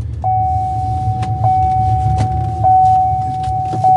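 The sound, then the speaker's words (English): A car's seatbelt warning sounds as a steady, high continuous tone broken by several brief clicks, over a low idling hum. “my car's telling me I need to put my seatbelt on.”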